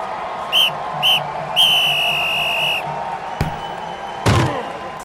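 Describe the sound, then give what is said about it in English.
A football hit sound effect for an opening kickoff: two short whistle blasts and then a longer sustained one, followed by a sharp impact and a heavier, louder crashing thud near the end. “And that sound effect that we have there with the hit at the end of the opening kickoff, that sounded like Jaden Dahlke on the opening kickoff.”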